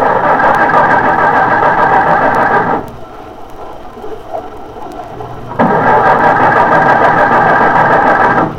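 A car engine cranking and failing to start: two long bursts of loud, steady, rhythmic grinding, separated by a quiet pause of about three seconds.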